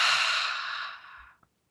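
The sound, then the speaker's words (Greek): A deep breath out through the mouth during a relaxation breathing exercise: a long, airy whoosh that slowly fades over about a second, then a faint, brief click. “Βαθιά εισπνοή από τη μύτη, εκπνοή από το στόμα.”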